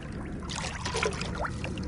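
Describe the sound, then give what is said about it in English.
Nets sweep through pond water during pond dipping, making faint trickling, pouring and light splashing sounds over a soft steady background. “we're off to the ponds on site for a bit of dipping.”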